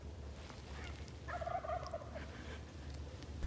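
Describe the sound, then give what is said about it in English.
A wild turkey on its roost answers an owl call with one faint, rattling gobble that rises briefly above a steady low background hiss. “that was the clip of him gobbling right back at an owl call”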